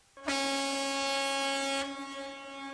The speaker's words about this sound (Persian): بعضی وقتی یه چیز جلوته یه دونه بوق هم مثلا بزنی.